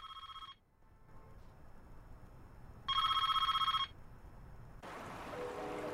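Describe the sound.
An office telephone rings in two bursts, each a bright electronic warbling trill, separated by a pause of a couple of seconds.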